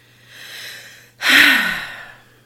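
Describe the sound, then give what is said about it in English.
A loud, deliberate breath out, a heavy, noisy sigh, comes after a softer breath in, with a brief pause between them and no talking. “literally just breathe out loud and breathe very loudly”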